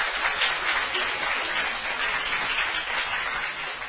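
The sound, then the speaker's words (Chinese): Church audience clapping to welcome visiting members from other branch churches: steady, even applause at moderate volume, with no break throughout. “欢迎佢哋好唔好啊？欢迎佢哋吓。”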